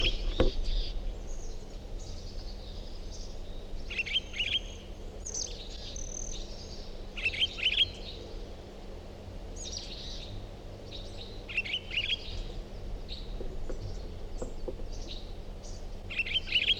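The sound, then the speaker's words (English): A single bird sings short, high chirping phrases that repeat every second or two. The song is faint over a steady low hum and background hiss. “Start recording same bird.”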